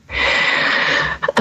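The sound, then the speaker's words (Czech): Gasping for breath through the mouth: one long, loud, rasping breath, then a few quick, short catches of breath at the end. “A čo se stane, keď někdo nevie dýchat nosom, že dýchá iba ústami? Alebo dokonca až tak lape po dýchu.”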